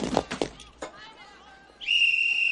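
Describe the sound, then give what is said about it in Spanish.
A shrill whistle blown by a Jewish boy dressed as a guard: brief voices come first, then a quieter stretch, then a single steady high-pitched tone that starts partway through and holds to the end. “Un niño judío vestido de guardia la ve salir y toca el silbato.”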